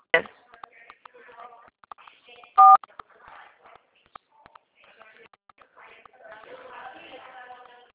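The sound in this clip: A single loud telephone keypad tone beeps during a phone call, among faint clicks and a murmuring voice on the line.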